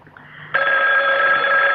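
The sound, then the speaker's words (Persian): A telephone rings at night, around four in the morning. A loud, steady electronic ring starts abruptly and holds to the end, after a quieter opening stretch. “کی ممکنه این وقت شب به ما تلفن کنه؟”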